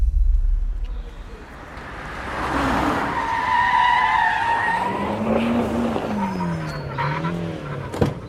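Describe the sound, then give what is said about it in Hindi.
Several luxury cars pull up and stop outside a mansion, their tires skidding and squealing in long, wavering sweeps over the engines' rumble, with a sharp knock near the end. “अगले दिन राजपूत हवेली के सामने 4-5 luxury गाड़ियां आकर रुकी।”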